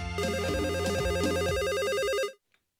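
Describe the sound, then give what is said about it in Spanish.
A telephone rings for an incoming call with a loud, continuous electronic warbling trill that stops abruptly, followed by a brief faint click. “En Idaho, tenemos llamada.”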